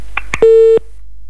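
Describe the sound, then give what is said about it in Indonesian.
Telephone line tones signal an incoming phone call: two brief blips, then one steady, loud mid-pitched tone lasting about a third of a second, with no voices. “itu dia tadi ada telepon dari Bang Nanang Banjar nih”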